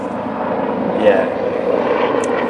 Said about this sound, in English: we'll just wait for the helicopter to pass. Cool noise, eh? Nice. Probably sounds great in headphones.